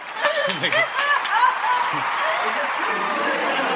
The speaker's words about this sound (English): Let's get a round of applause.